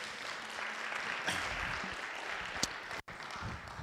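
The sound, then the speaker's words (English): Applause from a church audience, a dense and steady wash of clapping that holds throughout, with a brief dropout near the end. “Give God a round of applause.”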